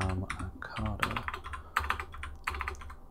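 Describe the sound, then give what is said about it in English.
Rapid typing on a computer keyboard, a dense stream of light clicks and key taps with a voice talking over it throughout. “I am going to just type it into my console here on the Retardis.”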